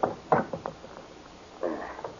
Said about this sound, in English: I'll have to get the combination and open the safe by ear, just to keep in practice.